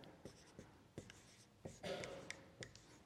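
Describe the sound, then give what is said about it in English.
Writing on a board: a faint series of short, scratchy strokes and light taps at uneven intervals, with one longer scrawl in the middle. “As a timeline, I'm going to write God's plan at the top here.”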